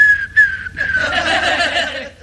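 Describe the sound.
A person whistles a sustained, fairly high tone with a short gap early on; the pitch drifts slightly lower. Laughter and chuckling then break in over the continuing whistle.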